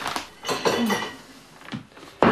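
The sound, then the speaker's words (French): A small plate is handled to hold pâté, with a few light clinks and clatters of crockery and cutlery, mostly faint with some sharper knocks. “Oh, il me faut une petite assiette pour mettre le pâté.”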